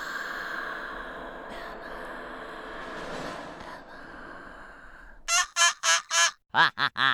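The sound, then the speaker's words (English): A bird calls near the end in a quick run of several honking, squawking bursts, loud and goose-like, after a long, quieter, murky stretch. “That bird noise you hear is Nelson the bird.”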